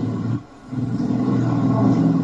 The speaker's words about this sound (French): Il y a une voiture qui passe près de la maison de quelqu'un là-bas.